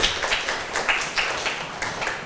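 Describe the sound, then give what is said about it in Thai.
A school class claps for a classmate during a biology lesson, a faint string of quick, fairly regular bursts of clapping from a small group. “เก่งมากค่ะปรบมือให้เพื่อนเลย”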